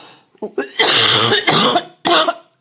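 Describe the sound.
Coughing from a scratchy, irritated throat: a few short throat-clearing hacks lead into harsh, breathy coughs, two long bursts and a final shorter one, loud and close, with no speech.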